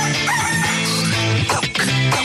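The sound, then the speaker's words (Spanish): A rooster's crow rings out, blended into loud, dense music that plays throughout, with no speech present. “El gallo”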